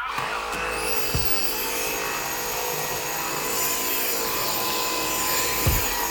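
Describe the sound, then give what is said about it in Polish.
A vacuum cleaner runs at low power over a parquet floor in a room, a steady, even drone throughout with a couple of brief dull knocks. “Właśnie sprzątam pokój z parkietem. No i jak widać, jeżeli chodzi o odkurzanie, to tu nawet odkurzacz się nie za bardzo wysila”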